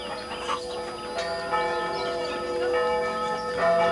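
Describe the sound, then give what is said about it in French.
Village church bells peal in festive celebration, several bells ringing together in a steady stream of overlapping, sustained metallic tones with repeated strikes throughout. “Alors que la fillette et son grand-père commencent la remontée vers le chalet, toutes les cloches du village se mettent soudain à carillonner pour fêter l'événement.”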